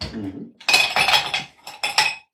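Glass and fresh ice cubes clink as a frosted glass is taken from the fridge: bright, sharp rattles in a few bursts with short pauses between them.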